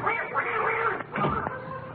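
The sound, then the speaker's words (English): A duck quacks outside, giving a run of rasping, nasal quacks with a short gap near the middle, fairly loud and without talk over it. “That duck out there just bit me on the ankle.”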